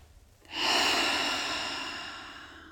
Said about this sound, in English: And then take a deep breath and get yourself comfortable.